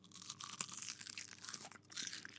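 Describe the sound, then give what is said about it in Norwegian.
A salty snack is bitten and chewed, giving a quiet run of crisp, crackly crunches with no talk. “Skal vi ta en knask? Okay. La oss ta en knask.”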